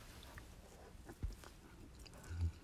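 A person bites into and chews food. The soft, faint mouth noises include a couple of slightly louder crunches, and there is no talk.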